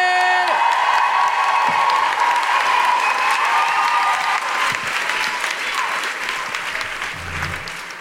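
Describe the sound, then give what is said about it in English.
Loud, dense applause from an audience at a live show in Melbourne, a steady wash of clapping that eases slightly toward the end, with no clear speech over it. “Put your hands together and make incredible woohooing noises”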